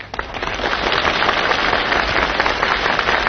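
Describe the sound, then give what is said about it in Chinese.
Thunderous audience applause during a comedy sketch at a Spring Festival gala: a dense, steady wash of clapping that stays loud and unbroken from start to finish, with no voices heard over it. “你听观众的掌声，掌声如雷呀”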